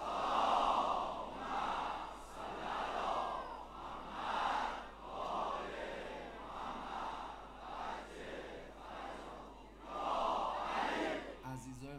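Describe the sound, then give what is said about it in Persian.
Many voices recite salawat together in unison, a dense chanting crowd rising and falling in repeated loud swells throughout, with a short shift in sound just before the end. “یه صلوات دست جمعی بفرست.”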